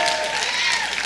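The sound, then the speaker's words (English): A church audience clapping in a brief burst of dense applause, with a voice rising above it. “You're clapping because you don't know.”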